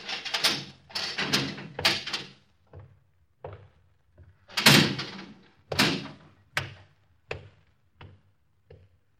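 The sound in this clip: A prison cell door, number 27, being opened: a long series of heavy metallic clanks and thuds, loud at first and again midway, then trailing off into fainter, evenly spaced knocks, with no talk.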